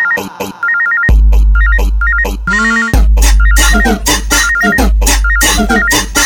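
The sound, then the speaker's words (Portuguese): A mobile phone ringtone loops a short, high electronic melody several times over a loud dance beat with heavy bass, broken by a brief pause and a rising tonal sweep before the beat returns. “Vibração do celular.”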